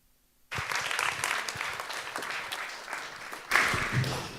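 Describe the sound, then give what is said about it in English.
Audience applause at an evening talk on EU copyright reform breaks in after a brief silence, then holds as dense, steady clapping and swells louder near the end. “give a warm applause for Amelia”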